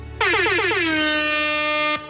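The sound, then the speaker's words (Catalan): A single long air horn blast like those sounded at football matches: loud and brassy, its pitch wavering and stepping down at first, then holding a steady tone for nearly two seconds before cutting off. “Això sembla aquelles botzines de, dels partits de futbol, no? Potser és algú que està pensant ja amb el nou estadi del Camp Nou.”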